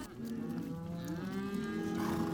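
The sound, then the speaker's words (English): Cows and calves mooing in an icy pasture, a sustained, low, harmonic moo that is fairly faint and heard alone without talk. “Pistol and I hang back to keep the cows and their calves from running all the way back down the pasture”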